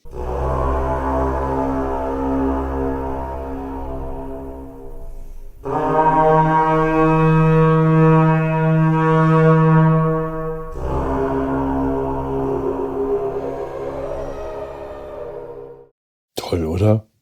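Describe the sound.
An Iron Age carnyx, a war horn blown in battle, sounds three long, sustained blaring notes, each droning and brassy with rich harmonics. The middle note is the loudest, and a short final blast comes after a brief pause.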